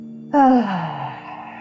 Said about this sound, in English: Let's breathe in again through the nose, closing our eyes, and exhale with noise.